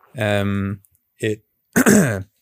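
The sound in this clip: A throat-clearing cough, made while getting emotional: three voiced, rasping bursts, the first long, the second short, the third rougher and louder, separated by brief silences.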